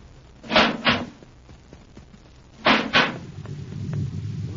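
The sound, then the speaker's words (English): Spaceship inner hatch opening as a radio drama sound effect: two pairs of sharp metallic clunks, each pair close together, followed by a low rumble that builds steadily underneath. “Quick now, open the inner hatch.”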